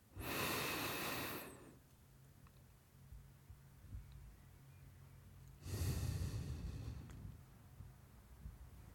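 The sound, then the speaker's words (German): Slow breathing exercise with eyes closed and hands resting on the belly, paced as four-second inhale, hold and exhale: two loud, airy breaths separated by a quiet pause of about four seconds, with no talking. “Und jetzt sollst du 4 Sekunden einatmen, 4 Sekunden halten und 4 Sekunden ausatmen mit geschlossenen Augen.”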